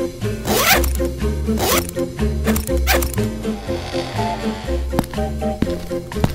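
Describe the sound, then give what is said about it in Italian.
A trouser zipper is pulled again and again in several loud, rasping bursts, with sharp clicks between them and steady background music underneath. “Mi si è stretta la cerniera e ora come faccio?”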